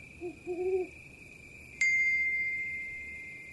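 An owl hoots at dusk as the sun sinks behind hills, giving a short low hoot and then a longer wavering one. A bright chime then rings out and slowly decays over a steady high tone.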